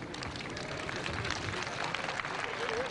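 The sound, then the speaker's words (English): A large open-air crowd of pilgrims claps as the Pope passes before a ceremony on a plain. The clapping is dense and steady throughout, with a faint murmur of voices mixed in. “As the Pope made his way through the clapping crowd”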